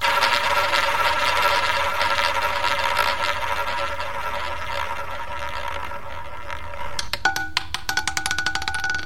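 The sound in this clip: A small random selector machine spins with a steady mechanical whir, then gives way to a quick run of sharp ticking clicks near the end.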